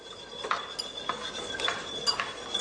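A utensil clinks and scrapes against a cooking pan while finely chopped tomatoes are stirred. Many light, irregular metallic taps sound alone, without talk.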